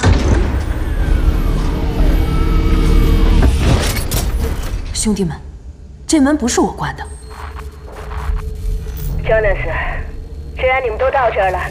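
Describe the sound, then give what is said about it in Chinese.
A sliding hatch on an escape pod at a base station grinds and whirs shut in a loud mechanical rumble for about four seconds, then cuts off. Quieter scattered clanks and voices follow. “得赶紧把舱门关上。我来。”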